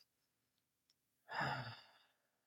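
Long, breathy exhale during a breathwork demonstration, a soft, airy sigh lasting about a second that fades slowly in otherwise near silence.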